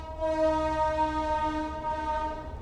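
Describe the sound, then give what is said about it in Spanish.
A passing train sounds a sustained horn with a steady, rich harmonic tone over a low rumble. The horn holds fairly even in loudness throughout, and no voices are heard. “ahí está pasando el tren.”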